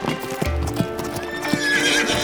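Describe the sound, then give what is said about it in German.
Hooves clip-clop as a horse is ridden, a few sharp, uneven hoof strikes over a low rumble, followed by a high whinny. “Sie reitet 3 Tage und 3 Nächte.”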